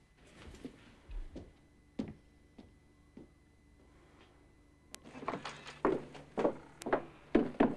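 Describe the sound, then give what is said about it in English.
Footsteps stomp past toward a pickup truck. Faint, scattered taps come first, then a run of louder, heavier thuds in a fairly steady rhythm. “his father stomps past and into the pickup.”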